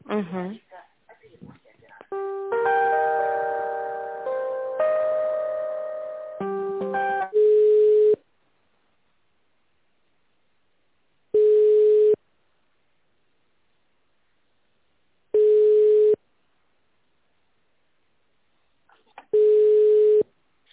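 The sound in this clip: Telephone ringback tone plays while a call is being transferred: four steady, mid-pitched beeps, each about a second long and evenly spaced by a few seconds of quiet, following talk at the start.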